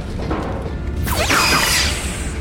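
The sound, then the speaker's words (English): Phaser fire in a sci-fi action show: a bright sweeping zap around the midpoint with falling tones, set over a steady, loud bed of background noise and rumble. “A lot of phasers going off here, guys. I love a phaser fight.”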